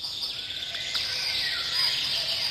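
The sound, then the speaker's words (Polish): Birds chirp in a steady chorus of high, thin twitters and short sweeping calls that overlap continuously, with no voices. “To nie są szczury ani myszy. Tym razem to naprawdę są... Ptaki!”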